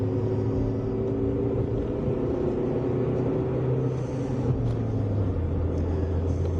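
A car driving at about 100 km/h gives a steady, loud low rumble with a humming engine drone and road noise, and its low tone steps slightly lower near the end.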